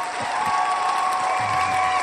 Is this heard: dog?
no